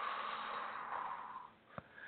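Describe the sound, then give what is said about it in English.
A slow exhale during a guided breathing exercise, heard as a steady, breathy rush of air. It lasts about a second and a half and fades out, followed by a brief click. “Let's start with a big inhale. Let it go. Now exhale.”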